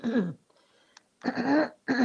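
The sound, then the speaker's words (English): A person clears their throat in a few rough, raspy bursts of harsh voiced noise, separated by short quiet pauses. “Excuse me. I have a frog in my throat right now, so I can't talk very good.”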